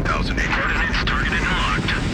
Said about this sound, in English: We have main engine start. 4, 3, 2, 1, 0. X. Thrusters at full.